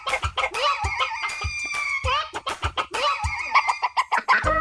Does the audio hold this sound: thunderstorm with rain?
no